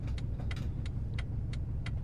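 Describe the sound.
A car's turn signal ticks in a steady, even series of sharp clicks over the low, constant rumble of the idling engine, with no talk.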